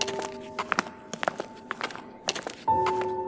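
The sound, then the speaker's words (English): Footsteps climbing a stairway, heard as a series of many dull, uneven thuds over a steady, sustained tonal background, with a louder thump near the end. “You walk up the stairway, and it goes on for a very, very long time.”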